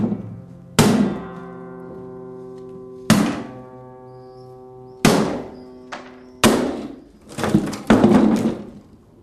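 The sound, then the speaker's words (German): An acoustic guitar lying on the floor is smashed with several sharp wooden blows, widely spaced at first and then quicker. Each blow sets the strings ringing and the body cracking, and the ringing decays between hits. “Es wird erstmal zaghaft zugeschlagen, aber dann... Oh, das ist so eine Art zweites Schallloch jetzt.”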